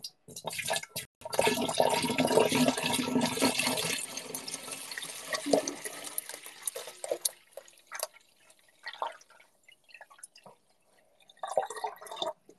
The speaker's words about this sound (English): Now I'll just pour this water and hopefully not get any on the phone while I pour.